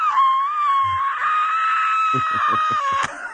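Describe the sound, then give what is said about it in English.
A man's voice imitates a man screaming in one loud, sustained, high-pitched wail held for about three seconds. A few soft low thumps come near the end. “And then you force him to go get surgery, and he's screaming. He's not only screaming, he's screaming like,”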